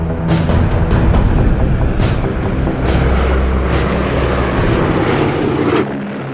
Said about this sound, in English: At 2:45 in the morning of August the 6th, Tibbets lifted his plane, named Enola Gay after his mother, off the runway.